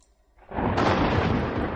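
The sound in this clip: Thunder rumbles in a stormy sky over a lake: a loud, broad roar swells in at about 0.4 s, a sharper crack lands near 0.8 s, and the heavy rumble holds steady to the end.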